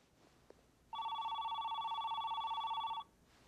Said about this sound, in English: Will you pick up the phone